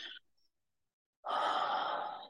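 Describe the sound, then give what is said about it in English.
A slow, deliberate inhale during a guided breathing exercise: a brief breath at the start, a pause of near silence, then a long, steady, airy intake of breath that fills the second half. “On the count of three, we'll begin. Three, two, one. Inhale for one, two,”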